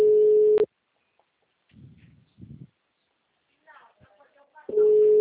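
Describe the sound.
A telephone ringing tone on an outgoing call: a steady low tone sounds for under a second, falls silent for about four seconds, then returns, with faint handling noises and brief murmured voices in the gap.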